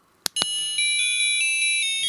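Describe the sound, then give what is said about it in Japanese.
A musical Christmas card begins with two sharp clicks, then a thin, high electronic melody plays in steady beeping tones, continuing evenly to the end. “クリスマスカードに、うん、そう、メッセージいただいて、これ曲が流れるんですよ。”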